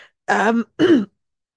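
A man clearing a tickle in his throat: two rasping, gravelly clears separated by a brief pause, fairly loud and alone.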